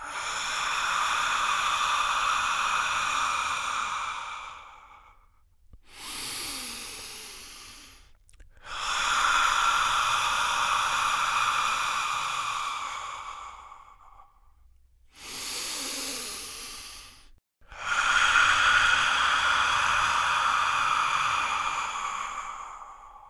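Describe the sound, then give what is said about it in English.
Slow deep breathing, in through the nose and out through the mouth with an audible ha: three long, loud breathy exhales separated by two shorter inhales. “So you breathe out, making the ha sound. Let's just do four together for a moment. In through the nose, out through the mouth.”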